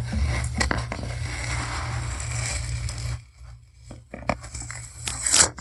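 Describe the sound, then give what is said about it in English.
Adhesive tape is peeled by hand off the lid of a box, giving rasping, crackling tears in uneven bursts. A brief quiet gap falls midway before more sharp peeling crackles. “There's that tape being pulled off.”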